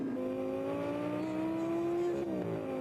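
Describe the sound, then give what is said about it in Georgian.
Small sports car engine roaring with a steady, moderately loud mid-pitched drone that climbs slightly in pitch, then dips near the end as the revs shift. No voices are heard. “ეს პატარა მანქანა ნამდვილი მონსტრივით ხმოის.”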